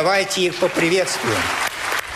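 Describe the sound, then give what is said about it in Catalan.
A long ovation fills the Russian State Duma as war veterans newly elected as deputies are welcomed. The clapping is steady and continuous, and a speaking voice runs over it. “Amb aquesta llarga ovació, la nova Duma va rebre els 46 excombatents que han aconseguit escó.”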